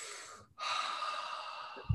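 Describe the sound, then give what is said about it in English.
A single deep breath is drawn in as a long, steady, airy inhale. It starts after a short silence and stays even in loudness, with a soft low bump near the end and no talking. “Palate cleanser. Deep breath.”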